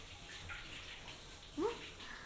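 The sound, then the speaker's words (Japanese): Warm water is poured over shoulders and neck during a bath, a soft, steady stream of running and splashing water that stays faint and continuous throughout. “肩と首のところも。ここお湯で温めると気持ちいいよね。”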